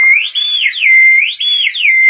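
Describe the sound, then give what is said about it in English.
A handheld whistle is blown in one loud, clear, unbroken tone. The pitch swoops up and down several times in a wavering, siren-like pattern. “This here's for you. Why, gosh, it's a whistle.”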